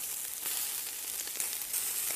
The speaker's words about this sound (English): Is that a goddamn... That fucking meat cooking again?